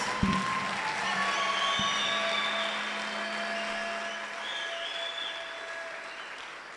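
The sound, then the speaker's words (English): Many hands clap in a steady, dense patter that holds at an even loudness for the whole stretch, with no voices. “Can you clap your hands?”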